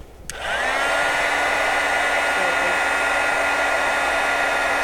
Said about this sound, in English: And now I'm going to dry it with the heat tool.